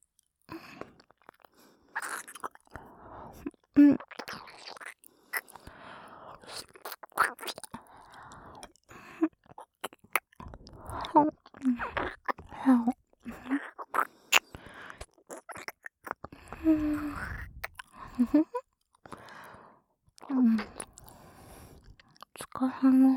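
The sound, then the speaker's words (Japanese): Wet licking and mouth sounds for close-up ear-licking ASMR: many irregular smacks, clicks and slurps, some loud and some faint, with soft whispering between them. “耳舐めうまいってよく言われるんですよ”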